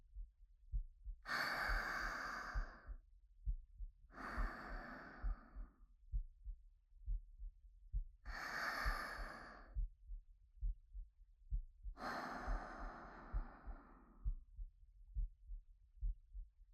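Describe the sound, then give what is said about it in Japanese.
Deep breathing in and out while being held in an embrace: four slow, airy breaths at an even pace, with a soft, steady low heartbeat thumping underneath throughout. “ちょっと深呼吸してみようか。抱きしめられたままでいいから、こうやって、”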